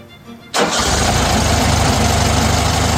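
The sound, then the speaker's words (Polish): A Volkswagen Beetle engine cranks and catches about half a second in, then settles into a steady, loud, rumbling idle that holds evenly to the end. “Już pewnie Państwo wiedzą, co tak brzmi. Projekt Garbusa. Inaugurując historię marki Volkswagen”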